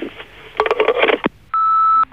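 Answering machine beep: a single steady, clear, high tone of about half a second. It follows a short burst of muffled, crackly sound and a brief pause.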